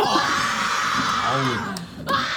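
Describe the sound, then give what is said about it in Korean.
Schoolchildren from Yongma Elementary scream and cheer together, a dense, continuous crowd din with a few shrill voices rising out of it. The noise dips briefly near the end, then swells back up. “얘들아, 너희들 나왔다 소리 질러! 소리 질러!”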